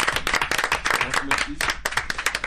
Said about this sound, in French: Allez, on s'applaudit tous.